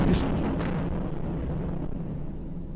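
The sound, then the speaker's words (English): Two rockets strike a civilian apartment building of roughly 20 to 30 stories and bring it down in the night, heard as a loud, broad roaring rumble with a sharp crack at the start that slowly fades. “that's two rockets taking down a civilian apartment building, a nice big one, probably 30 stories, 20, maybe 25 stories, 30 stories high, down”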